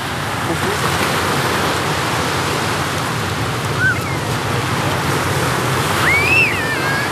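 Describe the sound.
Sea waves break on the shore in a continuous, broad wash of surf, with a couple of brief high squeaks rising above it.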